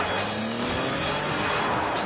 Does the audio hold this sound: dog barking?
no